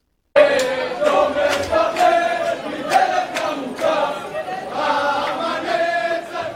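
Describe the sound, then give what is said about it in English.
A jubilant crowd sings and cheers at Ben Gurion Airport in Tel Aviv, waving flags as passengers from a Dubai flight emerge. Many voices blend into a loud, sustained roar, with sharp shouts or claps punctuating it throughout. “These were the jubilant sounds tonight at Ben Gurion Airport in Tel Aviv, people waving flags and singing as passengers emerged safely after a terrifying ordeal aboard a Dubai flight en route to Israel earlier today.”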